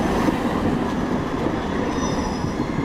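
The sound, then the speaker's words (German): Tram wheels rumble and squeal as trams pull in and out at a central city-centre interchange in Bremen, a loud, steady roar of rolling rail noise throughout with no voices. “An der Bremer Domsheide, dem zentralen Umsteigeknoten in der Innenstadt, fahren im Minutentakt Bahnen ein und aus.”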